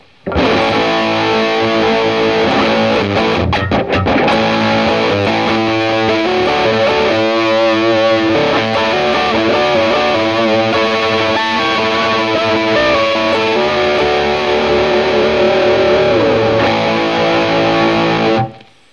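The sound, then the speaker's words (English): Distorted electric guitar, a homemade Red Special built by hand about 30 years ago, plays a loud, continuous phrase of sustained chords and note runs with no talk, holding level until it cuts off near the end. “this is the old Red Special guitar made in 30 years ago by me and my dad. And it sounds like this.”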